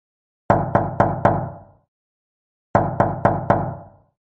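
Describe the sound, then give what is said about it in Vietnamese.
Knuckles rap on the door of room 204 in two sets of four quick, solid knocks, separated by a short pause. The knocks are loud and sharp and heard alone. “vẫn gõ cửa phòng 204 nơi Hạ Huy ở.”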